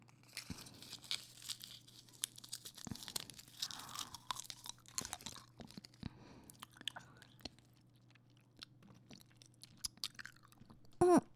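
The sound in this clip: Chewing and crunching on a small sweet fruit or candy: many irregular, crisp bites and mouth sounds over several seconds, with no talk. A louder burst comes at the very end.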